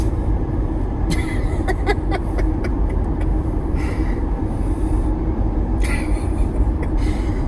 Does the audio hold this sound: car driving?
yes

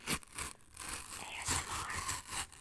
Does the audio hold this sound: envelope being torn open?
yes

